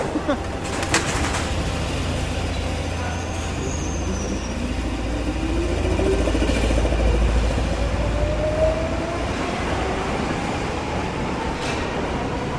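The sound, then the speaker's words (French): Metro train running, a steady low rumble and rattle of the carriages that lasts the whole clip, with a thin whine that rises slowly in pitch through the second half. “Et le bruit, le son du métro.”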